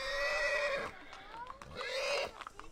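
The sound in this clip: A horse whinnies twice, each time a loud, high, shaky neigh, with a quieter stretch of breaths and soft thumps between the two calls.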